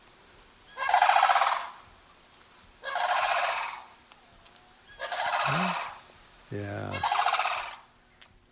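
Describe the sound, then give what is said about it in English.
Sandhill crane bugling: four loud, rolling, rattling calls spaced about two seconds apart, with a brief voice speaking between the later calls. “It's always fun to hear the sandhill cranes.”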